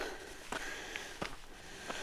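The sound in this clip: Footsteps of someone walking uphill: three soft, evenly spaced thuds over a low, steady background.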